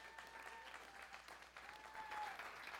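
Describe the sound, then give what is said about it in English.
Applause from a church audience welcoming a speaker to the stage, a faint, steady wash of clapping that holds evenly for the whole clip. “will you put your hands together and please help me welcome to the stage my wife, Amanda Miller.”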